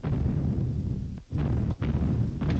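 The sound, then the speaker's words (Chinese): Enemy artillery shelling pounds Wusheng Mountain in a Chinese war radio drama. A dense, loud, continuous low rumble of bombardment is broken by two brief dips before it swells again. “连长，敌人炮击武胜山，部队也朝那个方向运动了。”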